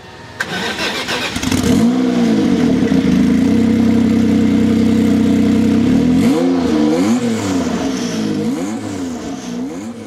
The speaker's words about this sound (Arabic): سيارة رياضية قوية فخمة وبريطانية، XJ220 من جاكيور، هي عنوان حلقتنا اليوم.